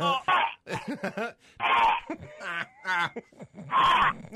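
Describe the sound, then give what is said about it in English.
Throat clearing from a tickle in the throat: three harsh, raspy bursts mixed with groaning vocal sounds in between. “I am under such a stress. I've got a tickle in my throat.”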